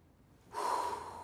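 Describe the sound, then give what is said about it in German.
A deep breath drawn in by a patient during a doctor's chest examination: a strong, airy inhalation that begins after a brief quiet moment and holds through to the end. “Und jetzt mal tief ein- und ausatmen. So ist gut. Nochmal bitte. Und einatmen.”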